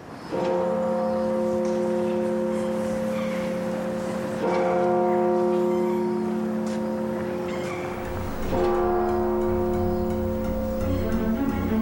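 Church bells toll for a funeral: about three heavy strokes roughly four seconds apart, each leaving a long, steady hum of layered tones ringing between them.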